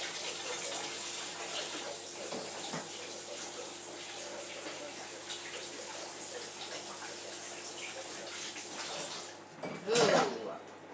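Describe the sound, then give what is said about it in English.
Tap water runs steadily as hands are washed under it, a continuous, even hiss. It drops away near the end with a brief, louder knock. “I'm just going to wash my hands”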